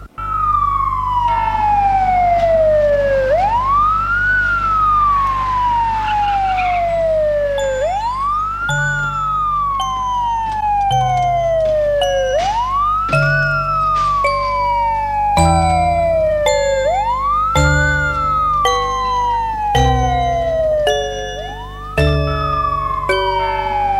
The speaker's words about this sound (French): Et l'ambulance file dans la nuit.